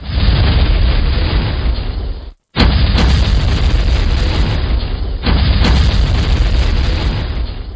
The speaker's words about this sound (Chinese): 黑车都轰轰轰咁炸开咗，原来黑车入面装满火炮